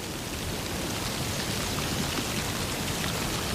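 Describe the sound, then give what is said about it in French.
Light scattered rain falling over a pile of leaves beside a ditch, a dense, even hiss of countless tiny droplets that stays constant and unbroken throughout, with no voices. “Une fine pluie épars.”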